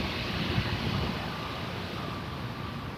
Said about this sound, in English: I don't know if you can hear the wind blowing. It's the aspen tree above me.